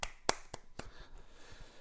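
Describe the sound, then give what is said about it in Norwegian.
A lone person claps: three sharp, bright hand strikes in quick succession, followed by a couple of much fainter taps against a quiet background. “Jeg har vært flink. Applaus.”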